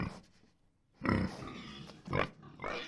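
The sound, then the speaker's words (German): A large boar grunts and snuffles as it shuffles past on a farm, making a few low, rough bursts of sound at a quiet level. “Ein riesiger Eber schlurft vorbei.”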